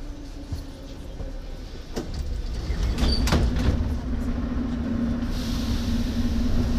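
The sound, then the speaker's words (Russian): Metro train doors slide shut over a steady, heavy rumble of the train, with a few sharp clunks and rattles midway and no voices. “Осторожно, двери закрываются.”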